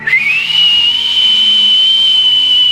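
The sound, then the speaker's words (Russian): A whistling kettle shrills on a kitchen stove: a loud, piercing, continuous whistle that slides up in pitch at the start, then holds a steady high tone for nearly three seconds over a faint low hum. “либо обычный чайник снимается с плиты. А еще помните, свистки были? Сидишь-сидишь, и вдруг с кухни”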